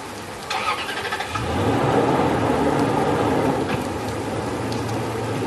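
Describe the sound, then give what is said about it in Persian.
A car engine starts and settles into a steady running rumble as the car reverses out of a villa yard in heavy rain; the engine noise thickens after the first second and holds fairly loud to the end. “سمیرا دنده عقب میگیره و از ویلا خارج میشه.”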